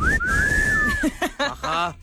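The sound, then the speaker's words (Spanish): A single long whistle sounds during a party game where players must whistle. It is clear and fairly loud, gliding up and then holding steady before fading, and brief voices follow it. “No, tienen que silbar.”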